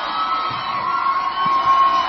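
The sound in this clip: A studio audience cheers and shouts, a dense, loud and steady roar of many voices that holds at the same level throughout with no break.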